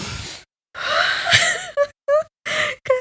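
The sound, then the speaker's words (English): A big deep breath is drawn as one long, loud, breathy inhale lasting nearly a second, then several short, voiced breathy bursts follow. “Should I do it again? Yeah. Big deep breath, guys.”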